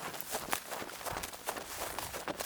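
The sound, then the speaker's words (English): Running footsteps pound up a steep mountain path in a quick, steady rhythm of soft thuds, with no talking over them. “And you start to run, and you can hear Jesus laughing and running behind you.”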